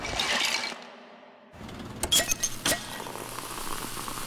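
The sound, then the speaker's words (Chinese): A can of Coca-Cola is cracked open and poured: a few sharp clicks and clinks, then a steady fizzing, bubbling hiss that continues to the end. “这个时候，你再打开一罐冰爽的可口可乐，”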